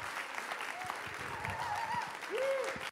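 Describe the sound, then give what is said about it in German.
Applause from an audience welcoming a pastor at K21, a steady patter of many clapping hands that stays fairly quiet and even throughout. “Lass uns mal mit einem Riesenapplaus Pastorin Lilly Pahl begrüßen in der K21.”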